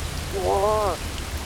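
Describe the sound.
Steady rain hisses as a storm approaches, a dense, even wash of noise throughout, with a brief tonal, harmonic sound rising over it in the middle.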